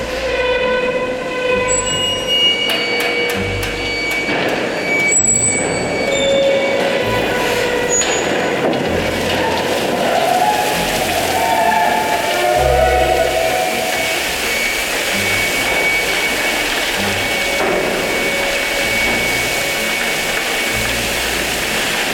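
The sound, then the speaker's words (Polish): Coal dumps from a railway coal wagon at a power plant with a loud, continuous rushing rumble. Low thuds and knocks punctuate it, and thin metallic squeals drift in and out above it. “No właśnie, tutaj zaczyna się ta droga węgla do kotła elektrowni. Posłuchajmy, jak wygląda ten zrzut.”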